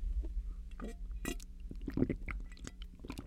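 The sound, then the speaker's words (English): Water is gulped while drinking: several soft, wet swallowing sounds come at irregular intervals, faint and alone. “Hear the gulping and everything.”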